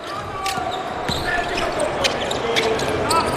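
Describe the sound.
Basketball dribbled by a guard during a national-team game late in the second quarter: a few sharp bounces ring out over steady crowd noise, with thin high squeaks from the court scattered between them.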